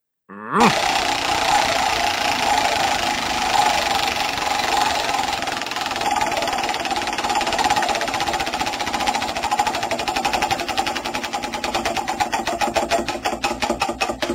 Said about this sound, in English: Okay, spin the wheel. Let's find out who gets a postal-friendly bottle opener. Here we go.